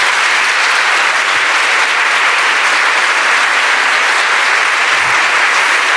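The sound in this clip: Audience applause welcoming a bishop as he is introduced: dense, loud, continuous clapping from a crowd, steady and unbroken for the whole stretch.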